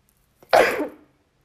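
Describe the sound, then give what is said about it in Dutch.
One muffled sneeze into the elbow by a person sitting alone: a short, sharp burst that fades within half a second, with no talk. “gelukkig zit ik alleen en ik heb netjes in mijn elleboog geniest”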